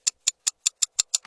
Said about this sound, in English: or feel as urgent as a ticking clock.